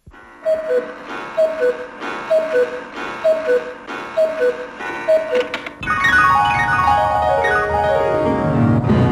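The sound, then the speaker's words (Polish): A radio station clock ticks steadily before the hour, each even tick carrying a short tonal pip. A dense, bright, sweeping tonal sound then cuts in and takes over to the end. “Na zegarze 18, tu program trzeci Polskiego Radia”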